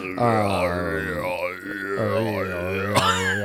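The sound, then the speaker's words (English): A voice imitates Tibetan monk throat singing: a deep, sustained drone with whistling overtones that sweep up and down above it. It holds steady for a few seconds, with a brief break near the end. “Dude, we're doing like that Tibetan monk thing. Yeah, throat singing.”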